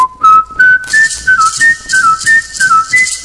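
A man, a champion whistler since age ten, whistles a tune alone. The loud, clear, high melody moves in short bright notes with a steady rhythm, climbing step by step at first and then bouncing between neighboring pitches.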